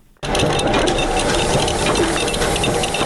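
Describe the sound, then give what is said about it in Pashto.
Loud mechanical clatter of two machines in a century-old, poorly maintained state printing house, one printing and one cutting paper, starting abruptly after a brief quiet and continuing steadily with dense, even rattling. “دا د سل کلنې دولتي مطبعې له نهو څخه یوازې د دوو ماشینونو غږ دی چې یوې چاپ کوي او بلې کاغذونه پرې کوي.”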